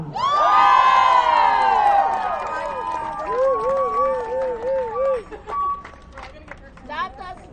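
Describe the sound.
A crowd cheers at a rally protesting deportations and supporting a family's fight to stay in Canada: loud whoops and high shouts burst out together, then taper into scattered calls and voices.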